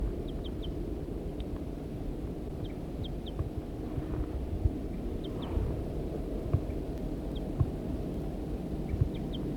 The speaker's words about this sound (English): The female's calling from the nest.